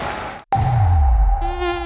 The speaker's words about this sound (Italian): Basta zanzare e reti che si strappano.